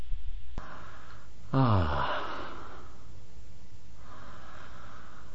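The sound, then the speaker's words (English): A voiced exhale sound from an inhale-and-exhale breathing exercise: a single sighing breath with falling pitch, loud and alone, then near-silence with faint breathy noise. “So it's inhale, pause, sound, exhale, pause. Inhale, pause, exhale, breath sound, pause.”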